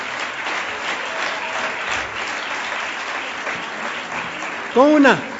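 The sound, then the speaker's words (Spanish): An audience ovation: dense, sustained clapping that runs through the whole clip, with a brief voice cutting in near the end. “Con una ovación como esta casi, y con una sonrisa de oreja a oreja.”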